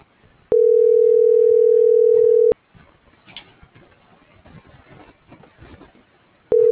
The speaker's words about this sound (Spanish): ahorita ya ve, está dando tonos, pero no me contesta, mira.